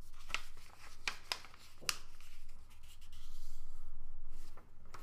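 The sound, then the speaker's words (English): Paper is folded and pressed down into a crease. A few crisp crinkles come early, then steady soft rubbing follows as the fold is smoothed flat, with no talk. “And then press down to make the crease here.”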